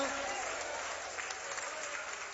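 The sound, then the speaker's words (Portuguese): A church audience applauding and clapping in praise during a worship service, a fairly faint, even, continuous patter of many hands. “Mais forte aplauso para o Senhor. Palmas de glória a Deus, igreja.”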